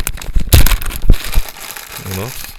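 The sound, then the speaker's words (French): Crinkling plastic as a small bag of toy eggs is torn open, a loud burst of rustling and crackling that fades, followed by a short vocal sound near the end. “Alors je vais ouvrir le petit sachet là”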